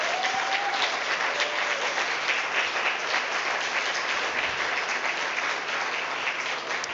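A church audience applauds the musicians, singers and worship team, a continuous, even burst of clapping that carries on throughout without a break.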